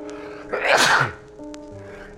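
A person gives one loud, explosive sneeze with a short breathy onset and a sharp burst. It rises out of a quiet background and dies away within about a second.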